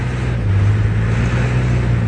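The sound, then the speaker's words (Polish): Cars sit in a traffic jam on a crowded city street, giving a steady, fairly loud engine drone with a constant low tonal hum and no distinct passes or horns. “Przeciskamy się środkiem jezdni pomiędzy sznurami stojących aut.”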